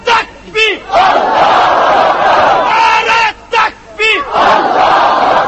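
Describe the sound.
A large crowd at a religious rally chants a slogan loudly. Short shouted calls from a single voice alternate with long, massed crowd roars, in two call-and-response rounds.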